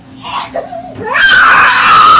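A two-year-old girl cries in a tantrum, starting with choppy whimpers and sobs, then breaking into a loud, sustained high-pitched wail.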